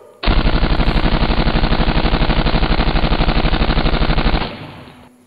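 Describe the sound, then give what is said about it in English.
Loud, dramatized automatic gunfire in a shootout scene. A sustained machine-gun burst of rapid, evenly spaced shots runs for about four seconds, then cuts off abruptly and leaves a short fading tail. No one talks. “Do something, shoot. Kill him, shoot him. I ain't sure. I gotta be sure.”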